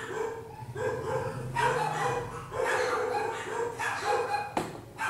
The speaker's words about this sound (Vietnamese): Chó cắn ma cái gì em?